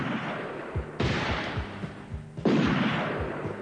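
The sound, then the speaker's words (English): Two gunshots ring out in a Western-style scene where a bullet strikes a hat. Each lands as a sudden sharp crack followed by a long, noisy decay, spaced about a second and a half apart. “That dirty rat shot my new hat.”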